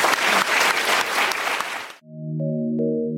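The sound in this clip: Audience applause for two speakers at a public talk: dense, steady clapping for about two seconds that cuts off abruptly, followed by a sustained electronic tone.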